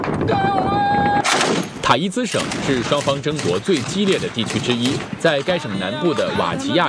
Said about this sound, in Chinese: 在该省南部的瓦吉亚区，沙特媒体记者在采访期间遭遇炮击。